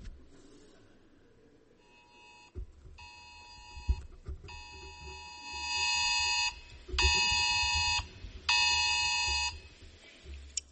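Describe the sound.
A phone emergency alert tone blares in several harsh, buzzing bursts of steady pitch, separated by short gaps, with a few low knocks between them.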